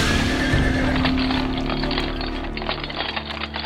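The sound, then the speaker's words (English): A horse neighs and its hooves clip-clop as it pulls a carriage on a bumpy ride. The whinny stands out near the start, then a steady, clattering beat of hooves and rattling continues, gradually growing fainter. “I say, this carriage ride is awfully bumpy, isn't it?”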